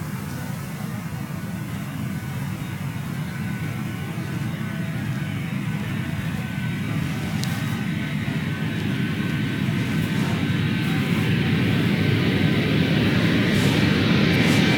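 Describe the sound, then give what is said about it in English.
Boeing 787 airliner taking off on a low-thrust roll, a steady broad engine roar with a hissing rush that grows slowly louder across the whole long stretch. “I got one more. Here's a low thrust to weight with the 787.”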